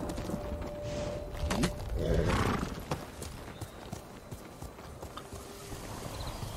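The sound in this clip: Horse hooves clip-clop steadily in a video game, with a short whinny mixed in and a louder burst of movement near the middle; no one speaks.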